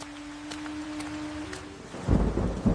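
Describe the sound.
Rain with thunder: a steady hiss of falling rain, then deep, loud thunder rumbles rolling in over the last second, with no one talking.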